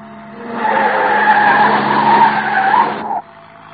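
Tires screech as a car skids while driven fast, a loud sustained squeal lasting a few seconds with a wavering pitch over a low rumble, then cutting off abruptly to quiet.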